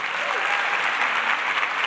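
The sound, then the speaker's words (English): Festival audience clapping and applauding to welcome a musician to the stage: a dense, continuous wash of many hands clapping at once, steady in loudness throughout the short stretch. “So please join me and let's get our clapping into formation to welcome to the stage Honor Easley.”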